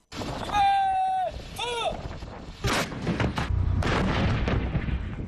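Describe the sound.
Artillery opening its first round of fire during a military exercise at over 4,000 metres on a high plateau: a few heavy, rumbling booms and bursts, with voices heard alongside.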